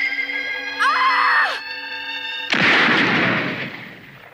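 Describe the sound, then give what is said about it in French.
A single heavy gunshot from a .357 revolver fired through the shooter's own hand: a sharp, loud blast partway through that decays slowly, preceded by a sustained tonal sound. “Il fallait freiner la balle, alors j'ai tiré à travers ma main.”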